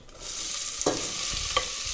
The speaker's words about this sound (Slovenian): Zdaj bom olil not olje.